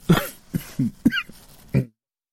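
Several short, harsh coughs come in separate bursts with brief gaps between them, each a rough, breathy rasp with some voiced tone, ending in silence.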